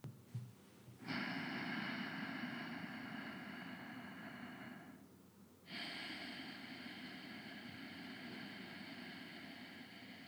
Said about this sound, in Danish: Så vi starter med en indånding.